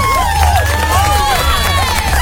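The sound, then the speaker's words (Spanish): Crowd cheering and applause, a loud, dense roar of many voices with shouts, sustained evenly and never dropping away. “¡Aplausos para la gente de Japón!”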